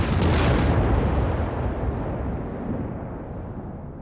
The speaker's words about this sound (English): From nearby James Island, a single Confederate mortar shell fizzes into the still starry sky and arcs over the fort before exploding with ear-splitting ferocity.